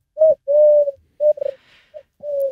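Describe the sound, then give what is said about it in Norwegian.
Common wood pigeon cooing: a series of about six hollow, mid-pitched coos, some long and drawn out and others short and clipped, in an uneven rhythm with brief gaps between them. No voices. “Ja, det var ringdue, var det det? Tyrkerdue? Nei, ringdua, den er mer sånn.”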